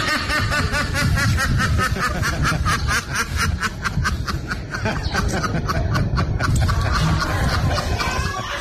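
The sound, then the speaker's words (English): A duck quacks in a way that sounds like a human laughing: loud, rapid, cackling bursts repeat in a steady rhythm through the whole stretch, with a dense low rumble underneath. “someone last night sent me a duck that sounds like a human laughing”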